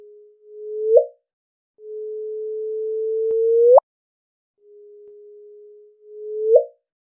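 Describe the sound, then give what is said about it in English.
Sonified collision of two black holes: three sustained pure tones, each held steady and then sweeping sharply upward in pitch at its end. The middle tone is the longest and loudest, and each swells in volume before cutting off. “What you just heard is the sound of two black holes colliding.”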